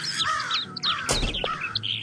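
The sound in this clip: Birds call from a nest above a parked, freshly washed and waxed convertible, a string of harsh caws and sharp chirps overlapping in quick succession, loud and without voices.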